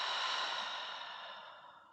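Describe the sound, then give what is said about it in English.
A long, deep breath out during a guided deep-breathing exercise: one steady, breathy rush of air that starts full and fades gradually over about two seconds, with no voices. “And then take another couple of deep breaths. Just as we did through the nose and out through the mouth.”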